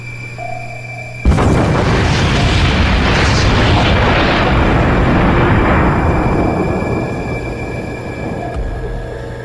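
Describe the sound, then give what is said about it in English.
A torpedo explosion destroying its target bursts in suddenly and swells into a long, dense, rumbling roar that holds for several seconds before slowly thinning out, with a steady low hum before the blast and after it. “That explosion has our ears ringing. I'm looking at a complete audio overload.”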